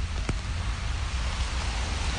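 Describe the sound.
Steady rain hisses throughout a cold, rainy walk outside, an even wash of patter with no pauses and one brief tap near the start.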